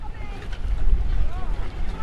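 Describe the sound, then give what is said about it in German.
Wind and water at a small sunny harbour in Sweden where children practise sailing small dinghies: a steady, moderately loud wash of wind noise and rippling water with faint, higher whistling tones drifting through. “Über dem kleinen Hafen von Barsebäck scheint die Sonne. Auf dem Wasser übt eine Gruppe von Kindern das Segeln in kleinen Jollen.”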